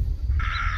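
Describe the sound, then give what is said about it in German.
A crow caws outdoors: a single harsh, nasal call that starts partway through and holds steady, above a constant low rumble. “Man hört die Vögel, man hört die Krähen, man hört manchmal Schritte.”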